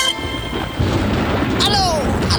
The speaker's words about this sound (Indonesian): Aduh, gede banget tuh petir.